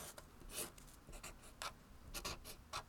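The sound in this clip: Pencil-like scratching as shapes are drawn, a big circle and triangles, sketched on a surface: many short rubbing strokes in irregular bursts, faint and heard alone.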